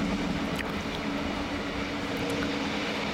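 Running train heard from inside a compartment: a steady low rumble with a faint hum, even in loudness from start to finish, with no voices.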